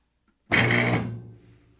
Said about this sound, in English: Oh, what was that sound? Is there a compressor in there or something? Or no, what is that? It's a sound of, it's electronic braking.